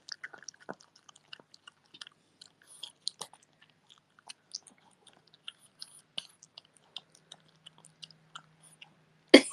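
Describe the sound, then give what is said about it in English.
A dog with only three teeth munches a snack cut into tiny pieces, giving many faint, irregular crunchy clicks and soft chews against near silence. A louder crunching burst comes at the very end. “He's munching. The thing about my dog is, he only has 3 teeth.”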